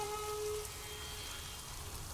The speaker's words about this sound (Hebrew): יש פה קצת גשם, גשם וחליל.